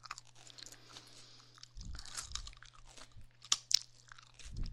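Crunching and chewing on a fresh cucumber: a few faint, crisp bursts of bites and mastication over a steady low hum, with no talk.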